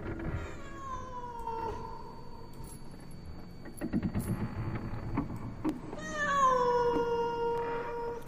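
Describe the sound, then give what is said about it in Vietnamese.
A cat on a porch at night gives two drawn-out, wavering, eerie meows with quieter rustling noises between them. The second cry is louder and more strained than the first. “có con mèo không biết ở đâu xuất hiện, cứ đứng ở ngoài hiên, kêu lên những tiếng ghê rợn thảm thiết.”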